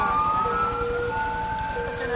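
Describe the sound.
Sirens from a fire truck and a police car sound as steady, high, overlapping tones above a low engine rumble. The sirens stay loud throughout.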